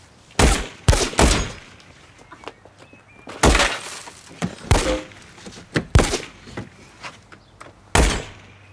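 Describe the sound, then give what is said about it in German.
Window glass breaking during a police shootout: a series of loud, sharp cracking impacts at irregular intervals, with smaller knocks and thuds between the main bursts. “Ich hab meine Scheibe kaputt gemacht!”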